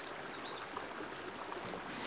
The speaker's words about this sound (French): C'est un cours d'eau qui est typiquement méditerranéen, qui n'a pas un débit très important, mais qui pourrait être beaucoup plus conséquent s'il n'y avait pas des tas d'obstacles.